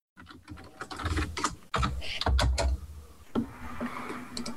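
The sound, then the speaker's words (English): Typing on a computer keyboard produces a steady stream of many quick, clicky keystrokes. The rhythm is uneven, with a short pause partway through. “I'm just going to type it out.”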